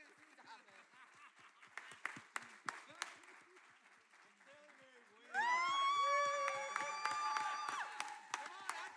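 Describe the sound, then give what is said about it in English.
An audience claps to welcome a speaker. Scattered claps open the scene, then the clapping swells abruptly about midway into fuller, louder applause that continues to the end. “So just welcome Lisa. Give her a hand, because she's so awesome.”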